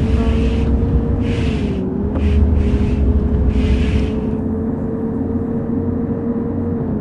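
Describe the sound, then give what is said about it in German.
A bus engine drones in the Bus Simulator video game with a loud, steady, low hum. A few short hissing bursts cut across it in the first half, then the drone carries on alone. “So, jetzt können wir aber Gas geben.”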